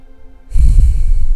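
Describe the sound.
A single deep breath drawn during a guided relaxation and detox meditation, beginning about a third of the way in as a fairly loud, steady rush of air with a low rumble and an airy hiss, heard alone with no talk.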